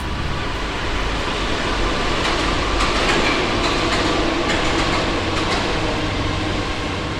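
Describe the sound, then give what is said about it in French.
Metro trains arriving at a station platform give a steady, loud rumble of wheels and rails with faint clacking throughout. No voices are heard. “On entend les métros arriver.”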